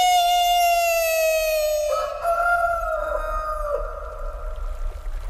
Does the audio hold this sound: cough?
no